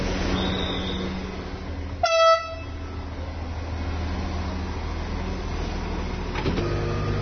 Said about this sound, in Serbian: Lokomotiva počinje da vuče ovaj lepi voz, skroz starinski.